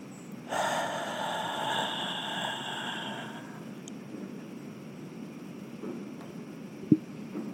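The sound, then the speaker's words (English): A deep exhale during a guided morning meditation: one long, breathy breath out lasting about three seconds, then quiet, with a brief sharp tap near the end. “Let's take a deep breath in, breathing in more of our laughter. And let's breathe out that loud gray cloud one more time.”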